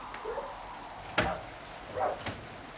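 A door being opened just a crack in a 1960 German radio drama: a sharp click, then a brief softer sound and a second, fainter click against a quiet background.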